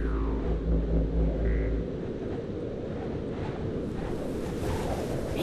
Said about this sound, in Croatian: Nad Splitom je zapuhala jaka orkanska bura.